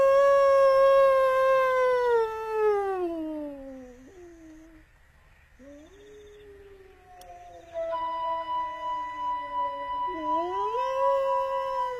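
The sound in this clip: Wolf howling: long, loud, drawn-out howls with a clear tonal voice, the first sliding steadily downward in pitch, then a brief lull before a second low, wavering howl with a higher tone joining in.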